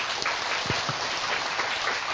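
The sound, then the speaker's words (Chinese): An audience applauds: dense, even clapping from many hands, fairly soft and steady for the whole stretch, with no talking over it. “俾掌声多谢隔篱弟兄姊妹。”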